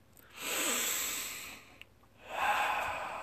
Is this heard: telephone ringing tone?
no

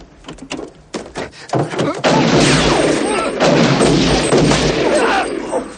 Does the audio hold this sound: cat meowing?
no

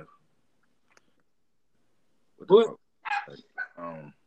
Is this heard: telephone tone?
no

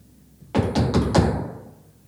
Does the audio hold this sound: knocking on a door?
yes

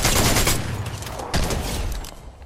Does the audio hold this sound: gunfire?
yes

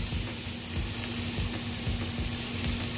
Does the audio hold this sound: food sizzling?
yes

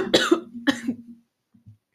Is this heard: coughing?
yes

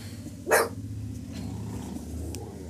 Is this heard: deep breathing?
no

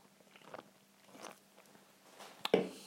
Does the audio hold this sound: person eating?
yes

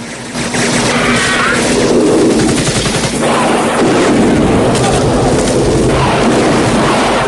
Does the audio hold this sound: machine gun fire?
yes

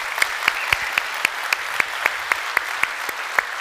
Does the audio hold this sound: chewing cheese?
no

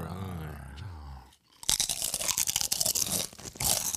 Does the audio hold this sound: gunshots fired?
no

